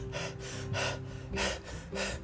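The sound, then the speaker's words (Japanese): Rapid, heavy breathing before a breath-hold dive: a quick, evenly spaced run of loud, airy inhale and exhale bursts over a faint steady hum. “でその潜水をする前に一回ね呼吸をね荒くするんですよね。”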